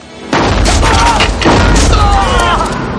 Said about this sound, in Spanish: Girando sobre sí mismo como un rodillo, recorre los bajos de la casa, apunta a las piernas y dispara.